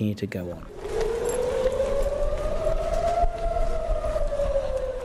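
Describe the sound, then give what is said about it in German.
Air raid warning sirens in Israel: after a brief voice, a loud wailing tone climbs slowly, holds long and steady, then eases slightly lower over a broad background rush. “Sirenen im Sommer 2014. Sie warnen in Israel vor Angriffen aus Gaza.”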